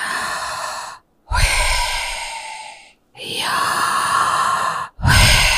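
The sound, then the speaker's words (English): A person demonstrating deep ritual breathing: long, loud, breathy rushes of air repeated in a steady rhythm, each lasting over a second and separated by brief silent gaps. “he would stand and all he would do was breathe because he believes and they believe that the breath is the name of Yahweh. So they would go,”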